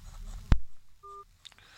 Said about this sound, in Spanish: se nos fue ahí la llamada, creo que se apretó un botón, ¿no?